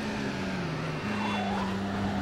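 Cars drifting through turns: a loud, steady engine drone that briefly dips in pitch about halfway through, then climbs back and holds, with a noisy wash of road and tyre sound underneath.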